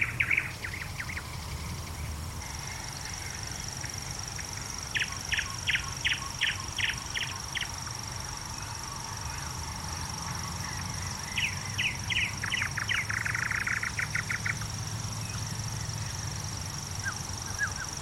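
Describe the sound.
Two birds sing in coastal scrubland along a beach, one of them rather monotonous. Bursts of rapid repeated trilling notes come at intervals over a steady high continuous insect-like tone and low background rumble.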